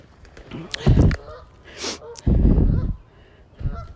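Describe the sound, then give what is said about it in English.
Two Canada geese fighting on a lake give harsh, loud honks in a few separate bursts. One higher-pitched squawk stands out among lower, noisy blasts, with quiet gaps between them. “I got two Canadian geese fighting. Stop fighting.”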